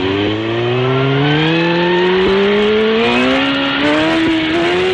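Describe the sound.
A speeding car's engine roars loud and steady throughout, its droning tone climbing gradually in pitch as the car accelerates.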